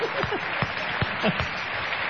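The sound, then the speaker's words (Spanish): Applause for a secretary, a steady, dense patter of many hands clapping at an even level with faint voices mixed in. “Una secretaria, un aplauso puede ser para ella.”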